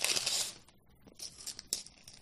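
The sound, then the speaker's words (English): Paper tears and crinkles as a long, heavy wrapped gift box from a Secret Santa exchange is pulled open, a loud rip first and then quieter, scattered crinkling. “So I'm going to go to this larger box here. It's long. It's got a heft to it. Pull it open.”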